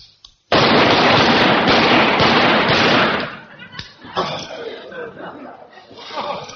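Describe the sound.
Rapid gunfire on a shooting range: a loud, dense, unbroken roar of shots lasting about three seconds, then quieter mixed sounds.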